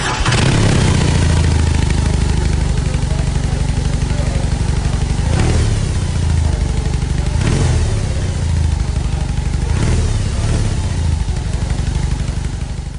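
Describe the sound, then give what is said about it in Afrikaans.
A big R18 motorcycle engine runs loud and steady, with a few short bursts of revving rising out of the deep, throbbing idle. “luister gou hoe klink hierdie R18, en dan hoor jy nou of jy saamstem.”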